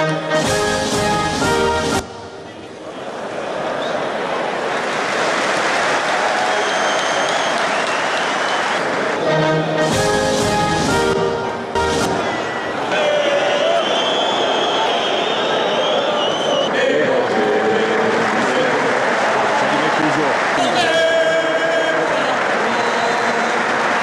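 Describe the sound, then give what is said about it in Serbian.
Crowd applause and cheering in a basketball arena after French players sang the Marseillaise themselves, a loud, continuous roar of clapping with tonal voices cutting through at times. “Organizatori su pokušali 2 puta da je puste, ali bez uspeha. Nakon toga himnu su otpevali sami košarkaši Francuske, što je publika pozdravila aplauzom.”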